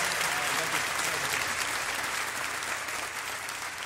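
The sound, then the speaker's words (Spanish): Concert audience applause: dense, continuous clapping fills the whole clip, loud and even, easing off slightly toward the end. “Un aplauso más fuerte para Rayleigh”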